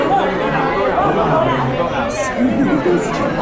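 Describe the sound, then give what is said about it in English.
Loud, overlapping chatter fills a room as many people talk at once, forming a continuous dense babble with no pauses. “Everyone's talking so loudly. When everyone's just chatting. Just chatting completely, like no lapse in conversation whatsoever.”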